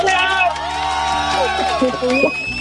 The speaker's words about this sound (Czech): To je radosti, vás tam je teda hodně, poslouchám tam hlasy.